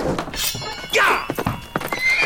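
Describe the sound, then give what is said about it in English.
Armored cavalry horses gallop out from barns, their hooves clattering in quick, uneven clip-clops, with a loud whinny sounding partway through over the busy thudding. “Cavalrymen in armor, wielding swords, on horses, galloped out from the barns”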